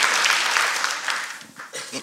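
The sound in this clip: Audience applause at a live talk: a burst of dense clapping that tapers off after about a second and a half as a voice starts speaking over it.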